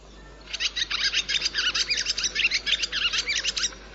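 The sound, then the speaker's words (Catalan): Barn swallow song: a rapid, continuous run of high chirps and twittering warbles, loud and alone for about three seconds. “però, escolteu, aquest és el so de l'oreneta comuna.”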